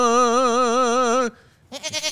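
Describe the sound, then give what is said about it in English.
A goat gives a sickly-sounding bleat: one long, loud, wavering cry, then a short pause and a quieter, broken bleat that pulses in uneven bursts. “What's wrong with that goat? That goat sounds a little sickly.”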